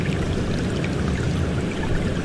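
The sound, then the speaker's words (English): A sound effect of a flare flying overhead: a dense, steady rushing hiss, much like pouring water, holding an even loudness throughout with no breaks. “That's the sound of flare flying over us.”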